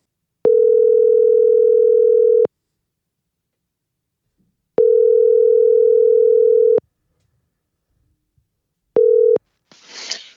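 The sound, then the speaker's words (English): Telephone ringing tone heard while placing a call: three steady, mid-pitched tone bursts with long gaps, the third cut short, followed by a brief noisy burst. “Okay, let's dial Reggie up and see what he has to say.”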